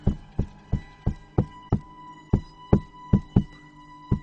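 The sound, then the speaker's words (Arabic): Heavy banging on a door, used as a horror story effect: twelve loud, evenly spaced thuds with a brief pause midway, over a faint steady hum. “وبدأ صوت الباب يخبط.”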